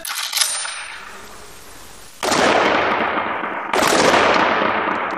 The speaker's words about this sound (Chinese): 接下来扣动扳机那一瞬间的绝对精准也至关重要。